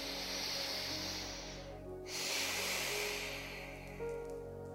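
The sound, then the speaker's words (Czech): A slow breath in and out during a guided relaxation exercise: a soft, airy hiss lasting about two seconds, a brief pause, then a longer exhale, faint over a low steady hum. “Tak, první nádech a výdech.”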